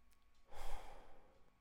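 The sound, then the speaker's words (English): A deep breath drawn and let out slowly during a relaxation exercise, heard as one soft, airy exhale that swells and fades, quiet and alone with no talk. “get ready to do our 5 deep breaths. Breathe in through your nose and out through your mouth.”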